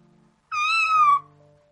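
An excited cat gives a single loud meow, a bright, drawn-out call that dips slightly in pitch, followed by a faint steady hum.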